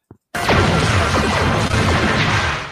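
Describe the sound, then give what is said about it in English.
A spaceship is struck by weapons fire from an enemy cruiser. A brief click is followed by a loud, sustained crashing roar that holds steady, then eases slightly at the end. “Klingon cruiser approaching. It shoots at them. Shields are down to 60%.”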